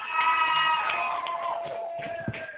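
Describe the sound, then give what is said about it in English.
A live studio audience cheering, a sustained swell of many voices calling out together that holds steady and then thins toward the end. “Sounds like you got a live audience. Yes, we do have a very live audience”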